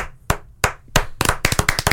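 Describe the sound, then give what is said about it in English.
Hand clapping: a few slow, sharp, separate claps that quicken into a faster, denser run of claps near the end, with no talk over them. “A last podcast on the left, full round of applause.”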